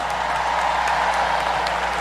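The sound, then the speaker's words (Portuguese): Crowd applause in a stadium at a large gathering, a constant, even stream of clapping at steady loudness, with a low hum beneath. “Se você acredita, aplauda.”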